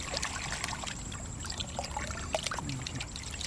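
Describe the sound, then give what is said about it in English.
Water sloshing and trickling as muck is rinsed off a clod of marsh grass roots in a metal pail, a steady, fairly quiet wash of splashes and dribbles with small bright drips throughout. “In a metal pail, he rinses muck off a clod of marsh grass roots”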